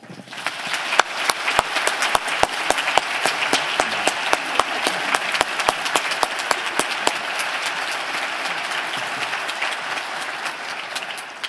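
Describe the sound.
A church audience applauds to welcome a guest speaker, dense and sustained clapping that keeps a steady level throughout and eases slightly toward the end.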